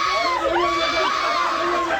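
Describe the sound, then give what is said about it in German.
Screaming fans in a crowd, shrill overlapping voices wavering up and down, loud and continuous for the full two seconds. “Achtung, Achtung, Kreischalarm hier bei Hitradio Ohr.”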